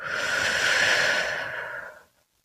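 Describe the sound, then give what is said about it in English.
A deep breath during a guided prayer, heard as one long, airy breath lasting about two seconds, moderately loud and smooth, that fades abruptly into silence. “I want you to start by taking a deep breath in And a deep breath out.”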